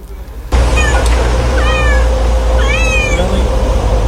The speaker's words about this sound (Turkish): Tetik bir otomobilin yanına geldiğinde yavru kedinin sesinin araçtan geldiğini fark etti.